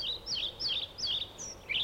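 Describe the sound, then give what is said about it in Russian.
Pied flycatcher song: a quick series of short, high, bright chirping phrases that repeat in an uneven rhythm over a faint, low background hiss. “Пеструшка.”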